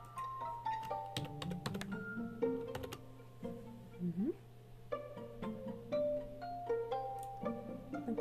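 Typing a name on a computer keyboard while entering credit card details to book a ticket online: many soft, quick key clicks in an irregular rhythm, fairly faint throughout.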